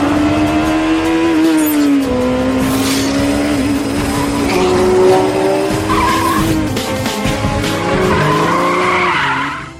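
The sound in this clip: Racing car tires squeal and skid through a drift, layered over a loud, continuous engine drone whose pitch wavers and shifts throughout, with no pause in the noise.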